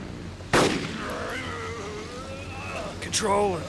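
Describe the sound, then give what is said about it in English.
A single sharp gunshot, a marine's final shot at a beast, cracks out loudly once, then wavering tones and voice-like sounds continue over steady background noise. “Control, the shot was successful.”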